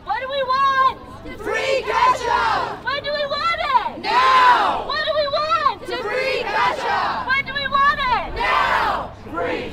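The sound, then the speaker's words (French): A crowd of fans chants outside a courthouse after a verdict, demanding freedom for Kesha. Many loud voices shout a repeated phrase in a steady rhythm without pause, with whoops and cheering mixed in. “À l'extérieur, des fans lancent des paillettes sur les marches du palais de justice et réclament Free Kesha Now, libérez Kesha maintenant.”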